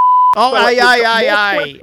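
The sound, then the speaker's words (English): A single steady, high-pitched censor bleep lasts about a third of a second and cuts off abruptly. A voice then continues talking right after it. “See, I've got to beep that bit.”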